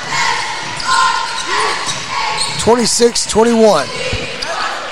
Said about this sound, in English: Johnson picks up the dribble